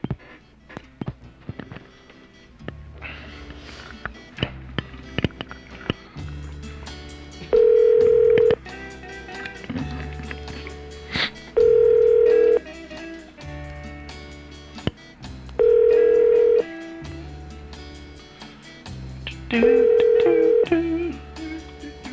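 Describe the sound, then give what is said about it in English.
Telephone call to a loading dock being dialed and ringing: four evenly spaced, steady ringback tones over a busy, music-like background with short knocks and clicks. “wants us to call the loading dock and ask them why they're so late. All right, let's do it. Ring them up.”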